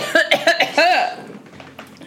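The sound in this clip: Choking coughs after something went down the wrong way: several short, voiced coughs in quick succession, then a longer strained one that tails off into quiet.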